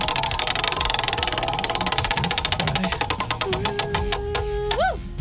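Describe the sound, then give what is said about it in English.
A game-show prize wheel spinning, its rapid ticking clicks gradually slowing and spacing out until the wheel comes to rest. “Remy, why don't we go ahead and spin this wheel to see which game you will be playing today. Here's my Friday spin.”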